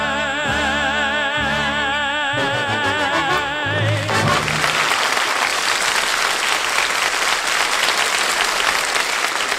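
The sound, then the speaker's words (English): Crowd cheering and applauding at the St. Patrick's Day Parade on Fifth Avenue in Manhattan: loud, dense crowd noise that takes over after about four seconds of music and continues to the end. “Decked out in green, cheered as the St. Patrick's Day Parade, the world's oldest and largest, marched in Manhattan.”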